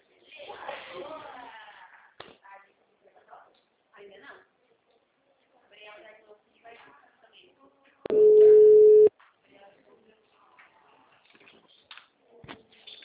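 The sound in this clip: A telephone tone sounds as a call is placed to a client: one steady, loud beep lasting about a second, set among quiet intermittent talk.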